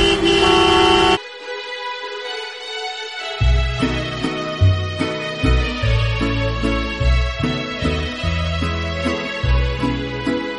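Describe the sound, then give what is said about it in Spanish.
Car horns honk in a traffic jam. A loud, sustained horn blast opens, followed by long held horn tones over a steady rhythmic bass beat. “Si lo que tienes delante es la matrícula de otro coche, es porque estás en el atasco.”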